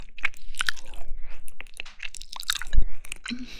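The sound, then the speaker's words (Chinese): Crunchy chewing of cold dressed pig ears, with many wet, crisp bites and squishy mastication in an uneven rhythm, loud and close, with no talk. “对啊，我正吃着呢，在吃凉拌猪耳朵。”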